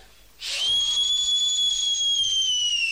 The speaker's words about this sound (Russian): Вот это свистну. Аж в ушах звон-перезвон.